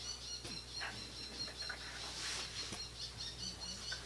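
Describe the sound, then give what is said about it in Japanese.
Calls of a bull-headed shrike: faint, scattered chirps over a steady background hiss, with no one talking. “今鳴いてるあれはモズですね。”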